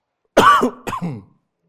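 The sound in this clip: A person clears their throat during a scripture reading in a sermon, as if something is stuck, in two rough bursts: a louder, longer rasp, then a brief pause and a shorter, weaker one, with silence around them.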